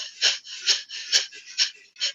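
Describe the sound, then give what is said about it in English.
Rapid fire breath from a yoga breathing exercise: five sharp, forceful nasal exhales in a quick, even rhythm, with hissing breath in between, each burst loud and airy. “For those of you who know the fire breath, begin to use the fire breath. If you don't know the fire breath, just do long, deep inhales and exhale.”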